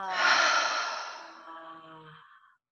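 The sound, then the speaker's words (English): A deep breath drawn in through the nose and let out as one long, breathy sigh, strong at first and slowly fading, with a faint voiced hum running through the exhale. “I'm just receiving one more deep breath in through the nose and just let it go on the exhale.”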